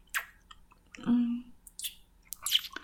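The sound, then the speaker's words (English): Wet kissing between intimate partners, a few soft squishy smacks and lip sounds with a short low hum in the middle, quiet and unhurried. “I love how you kiss me. I love the taste of your mouth.”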